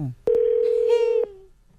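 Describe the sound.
A telephone call goes unanswered: a single steady electronic ringback tone sounds for about a second, then gives way to near silence.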